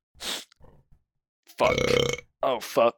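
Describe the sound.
A loud, drawn-out human burp used as a comic attack in a mock courtroom sketch. A short hissy puff comes first, then the long rumbling belch, followed by a brief vocal sound.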